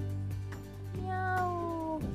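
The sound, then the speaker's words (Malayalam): A soft-furred striped kitten meows in a drawn-out, fairly loud call whose harmonic tone slides gradually downward in pitch. “പെട്ടെന്ന് അത് meow എന്ന് കേട്ടു നായക്കുട്ടി ചാടി എഴുന്നേറ്റു ജനൽപ്പടിയിൽ മൃദുവായ രോമമുള്ള ഒരു വരയൻ പൂച്ചക്കുട്ടി ഇരുന്നിരുന്നു”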